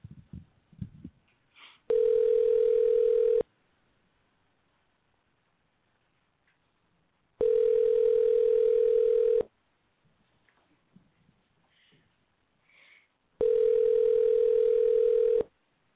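Telephone ringback tone on an outgoing call: three long, steady, mid-pitched rings separated by silent gaps of several seconds, with a few faint small noises in between.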